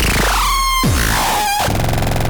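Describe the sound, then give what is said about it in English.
A distorted synthesizer blares loud and harsh, with sweeping pitch glides and gritty noise, then settles into a dense, buzzing drone. “Does your synthesizer sound like this? You need it to sound like this.”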